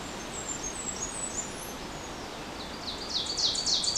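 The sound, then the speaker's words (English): A Blackburnian warbler sings near hemlock trees, giving very high, thin notes. Faint scattered notes come first, then a louder rapid high series near the end, all over a soft background hiss. “might have heard a second Blackburnian.”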